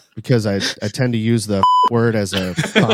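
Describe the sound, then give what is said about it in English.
A single short censor bleep, a steady high-pitched tone replacing a swear word and cutting briefly into a stretch of speech, with talking on both sides of it. “every time you try and get a swear out, you get bleeped?”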